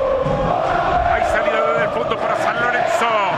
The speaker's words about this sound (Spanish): Alienta el público de San Lorenzo.